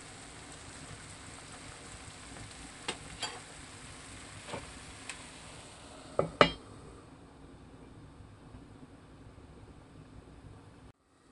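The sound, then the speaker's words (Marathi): A spinach vegetable dish cooks in a covered pan with a faint, steady sizzle. Several sharp metallic clinks break through, then the sound sinks into a quieter, duller stretch. “भाजी खूप पटकन शिजते, 10 ते 12 मिनिटात भाजी तयार होते। पुन्हा एकदा झाकण ठेवू।”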